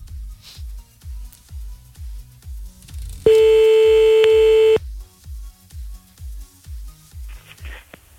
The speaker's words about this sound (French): Merde, il a raccroché, attends, on va le rappeler, attends. On rappelle encore un petit coup, hein.